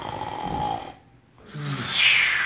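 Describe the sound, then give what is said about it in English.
A sleeping person snorts and snores: two loud, rasping breaths separated by a short pause of near silence, the second rising and growing brighter. “Snorting and snoring.”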